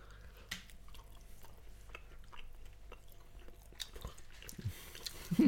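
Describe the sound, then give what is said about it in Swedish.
Quiet chewing and biting as people eat a tray of tapas with chorizo and Spanish salami: soft, irregular crunchy clicks and mouth sounds that grow a little louder at the end. “Man bara står och njuter. Och det är säkert jättebra radio när vi står och äter upp en hel tapasbricka.”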